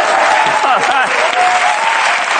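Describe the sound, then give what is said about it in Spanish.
An audience applauds two singers at the close of a performance. Dense, even clapping runs throughout, with a few brief voices calling out over it early on. “iba a pedir un aplauso para él, pero es que quiero encadenarlo con el aplauso a este chaval que canta muy bien”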